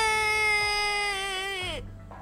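A boy sitting on the ground crying: one long, sustained wailing cry that holds steady, then dips in pitch and breaks off near the end, leaving fainter low noise.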